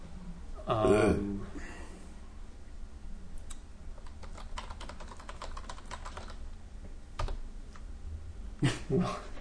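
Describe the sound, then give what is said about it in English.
Rapid typing on a computer keyboard while entering a search box query: many quick clicks in uneven bursts, steady throughout, with voices talking over the keystrokes. “I go to the search box. And I'm going to type in...”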